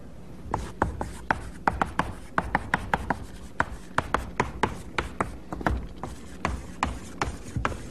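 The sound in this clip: Pen-on-paper style writing heard on its own: many short, scratchy strokes and taps in an irregular rhythm, some sharper than others, with no talk.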